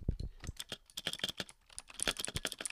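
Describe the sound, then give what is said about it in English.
Rapid typing on a computer keyboard whose space bar sounds odd: many quick, uneven clicks and clacks in bursts, fairly faint, with no voices. “Clickety clackety clickety clackety. Oh, that space bar sounds kind of funky.”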